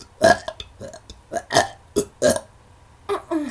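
Several loud, croaky burps break out in separate bursts, some short and some drawn out, with brief quiet gaps between them.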